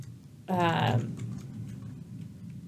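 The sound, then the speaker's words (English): Keyboard typing, a faint scatter of light clicks that follows a brief voice at the start and continues softly to the end. “I don't know, I got distracted by your typing.”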